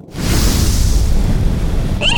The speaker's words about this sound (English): Oh my god, it actually spews fire!